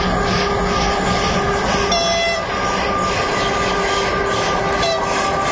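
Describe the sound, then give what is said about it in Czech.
Slovak twin freight electric locomotives pass in a loud, steady rumble with rail clatter and a few faint high tonal lines. No voices are heard. “Nákladní elektrické lokomotivy slovenské dvojičky vás teď uvedou do nové hodiny a taky k času Region Expressu.”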